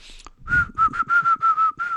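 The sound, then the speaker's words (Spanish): A person whistles a short tune in a series of about seven clear, steady, high notes with brief gaps between them, heard alone, without speech or other sounds. “Cuando la gente silba, se siente como que está tramando algo”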